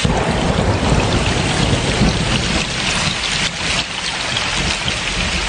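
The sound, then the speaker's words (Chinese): A thunderstorm brings heavy rain, a dense, loud, continuous roar of falling water with a low rumble of thunder beneath it, steady throughout with only slight dips in loudness. “爸爸，你看，打闪了！ 快捂住耳朵，马上就要打雷”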